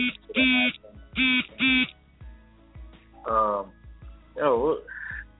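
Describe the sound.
A phone's Periscope app notification sounds as three short, identical tonal bursts in quick succession, band-limited and chirpy, followed by further brief tonal sounds while people talk.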